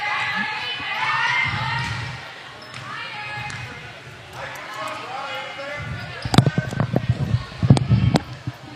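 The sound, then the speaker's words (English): A basketball is dribbled on the court during a game. Sharp thumping bounces come in a quick, irregular run in the last few seconds, under a commentator's steady talk. “Dribble hand up top for Cushing.”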